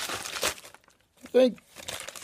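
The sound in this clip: Crinkling of a basic paper bag being handled and opened: a few short papery rustles and crunches, separated by a quiet gap, with a brief voice-like sound mixed in.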